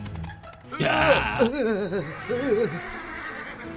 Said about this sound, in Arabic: إنه حماري. لما يركض بطريقة جنونية؟